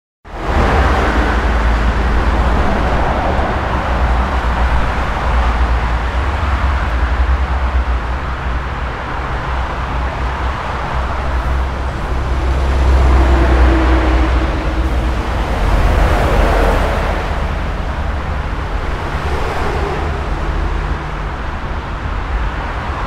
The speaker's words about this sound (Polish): Dla porównania ponownie ruch uliczny przy braku ekranów akustycznych.